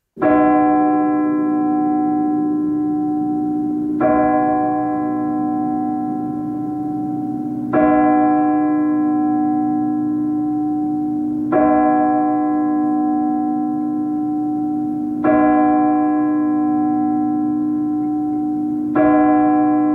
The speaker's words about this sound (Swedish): Nu slår klockan 12.